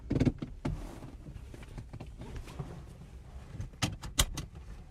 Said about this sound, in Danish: det er lyden, når den starter. For det lyder sådan her. Og så kører bilen.